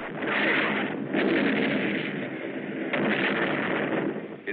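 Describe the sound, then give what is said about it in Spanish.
A continuous, dense roar of German long-range guns firing shells across the Channel, heard as a muffled, low-fidelity wall of rumbling noise with no distinct separate blasts. “Las armas alemanas de largo alcance se estaban sobrecalentando de tanto lanzar proyectiles a través del canal.”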